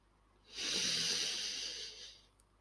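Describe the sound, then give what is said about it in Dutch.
A single slow inhale during a guided breathing exercise, a soft, airy hiss of about one and a half seconds that rises quickly, holds steady and then tapers off. “Doen we nog een keer. Adem in.”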